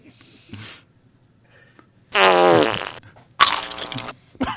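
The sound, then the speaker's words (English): Fart: two loud, raspy blasts with a buzzing, sputtering tone, plus a few shorter, fainter squeaks before and after. “I think I just shat myself.”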